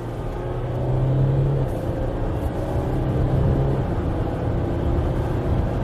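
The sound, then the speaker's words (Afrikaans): Loud, steady low engine drone from a Jaguar F-Pace SUV while the driver shifts gears with the paddles behind the steering wheel, third to fourth. The level stays fairly constant with only slight dips, and no voices are heard. “Ek kan ook ratte verwissel met die spanne agter die stuurwiel en anders as talle ander karre is hierdie nogal vinnig. Derde, vierde, dit gebeur byna oombliklik.”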